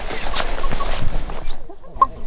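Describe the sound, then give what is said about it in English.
Crow calling during outdoor fieldwork: a few loud, harsh calls break through a steady background of noise. “With the odd interruption along the way, like that crow. And yes, that is a crow.”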